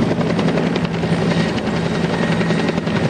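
Loud helicopter rotor drone from military and police helicopters carrying special forces to a palace roof, a steady throbbing whir that holds even and unbroken throughout.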